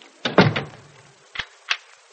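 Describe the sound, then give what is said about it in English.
A door being locked: a clattering thud of handling at the door, then two short, sharp clicks of the lock, fairly faint, with no voices. “Must you lock the door? I prefer locked doors.”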